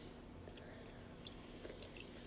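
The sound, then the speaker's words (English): Faint chewing of almonds, with soft crunches and moist mouth sounds popping out now and then over a low, constant background hiss. “I apologize for the background noise. I'm eating some almonds.”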